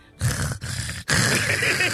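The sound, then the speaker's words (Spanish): A man breathes heavily in a played-back recording: a few loud, raspy, gasping breaths in quick succession, heard alone without talk. “Así respira.”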